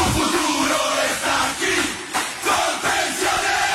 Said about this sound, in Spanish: La tribuna revienta de la dicha porque para ganar este partido estamos todos en la cancha.